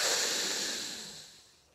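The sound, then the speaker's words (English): A deep inhale taken during a guided breathing exercise: a soft, airy hiss that starts full and fades gradually over under two seconds, with no talking. “Maybe you can, it's okay, but take a third breath in.”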